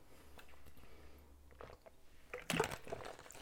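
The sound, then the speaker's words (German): A quick sip of a drink, with faint wet mouth and swallowing sounds and a louder gulp near the end, quiet overall. “Mal eben schnell einen Schluck trinken.”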